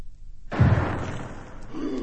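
A hand grenade explosion sound effect: a sudden loud burst with a deep low boom, trailing into a sustained rumbling wash of noise that stays loud to the end.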